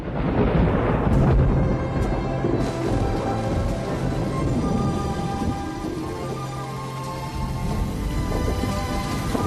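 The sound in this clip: A thunderstorm with rolling thunder and steady rain, a dense, loud rumble that holds through the whole stretch with no voices.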